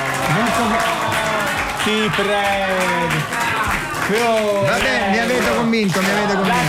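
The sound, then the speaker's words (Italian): A disappointed audience reaction: a crowd groans and moans over continuous clapping, the sagging vocal tones rising and falling in a few waves at a steady, loud level. “Senti il pubblico deluso.”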